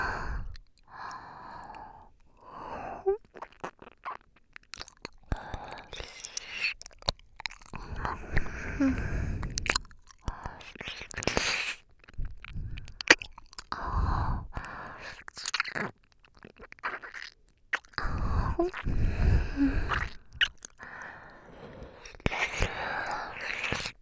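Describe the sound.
Close, soft chewing and biting sounds come in irregular bursts, mixed with quiet breaths, sighs and whispering between mouthfuls.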